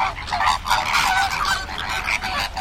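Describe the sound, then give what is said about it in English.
American flamingos calling in a busy, overlapping chorus of nasal, goose-like honks that repeat rapidly and loudly throughout, with no talk. “The bird's Latin name is Phoenicopterus ruber. And if you found them in the wild, they might sound like this.”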